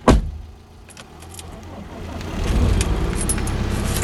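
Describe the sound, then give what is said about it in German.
A car gets ready to drive off: a thud at the start and light jingling of keys, then a low engine rumble that swells and holds steady through the second half. “Steig ein, wir fahren nach Würzburg.”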